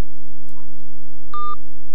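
A telephone line tone plays as an incoming call disconnects. One short electronic beep sounds over a steady, loud electrical hum.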